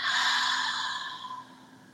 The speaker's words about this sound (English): And exhale, bring this breath out of you again.